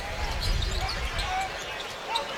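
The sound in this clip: A basketball bounces on the court during a college game between Xavier and Dayton, with a few dull, low dribble thuds under a steady crowd murmur.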